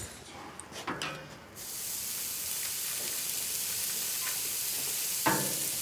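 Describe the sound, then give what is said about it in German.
Burger patties go onto a grill with a few light clinks, then a loud, steady sizzle and hiss takes over, with a short crackle near the end. “Ich packe jetzt hier die Burger-Patties auf den Grill. Hoffe, die fallen mir nicht auseinander.”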